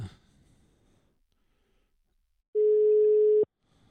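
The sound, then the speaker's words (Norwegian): Ringback tone of a phone call to a cyclist during a multi-day bike race: after a long, near-silent stretch, one steady mid-pitched tone sounds for about a second and stops abruptly. “Så nå skal jeg ringe til han”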